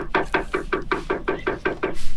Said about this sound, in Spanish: Esto de golpear la puerta me hace acordar.